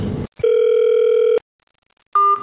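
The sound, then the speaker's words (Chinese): Telephone line tones as a call is put through: a steady, clear tone lasting about a second, a short silence, then a briefer two-pitched tone. No one speaks. “你先 赶紧接进来， 把电话给我们接进来吧。”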